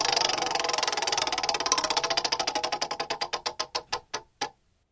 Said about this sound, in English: All right, we're going to play a little game of caller roulette. Let's spin the wheel.